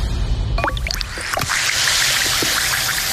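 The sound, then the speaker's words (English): Alka-Seltzer effervescent tablets fizz in water. A few short drips and splashes give way to a bright, steady hiss of bubbles that keeps going to the end. “Hear that? That's Alka-Seltzer. The sound of fast heartburn relief.”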